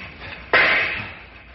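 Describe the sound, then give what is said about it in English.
A gunshot fired to shoot the lock off a handcar shed: one sharp, loud crack after a quiet stretch, followed by a tail that slowly fades away. “stand back while I shoot the lock off.”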